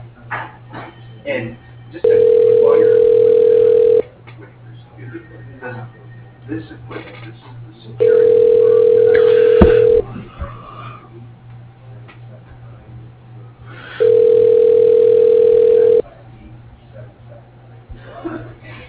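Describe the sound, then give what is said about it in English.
Phone ringback tones as a call is transferred to voicemail: three long, steady, evenly spaced tones of about two seconds each, with a low background hum and faint muffled sounds between them. “Yes, he does. I can transfer you now.”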